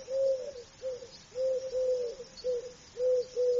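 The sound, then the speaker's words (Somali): Dove cooing: a series of soft, low, hollow coos in repeated phrases with short gaps, steady and alone against faint background noise. “Waa qooley.”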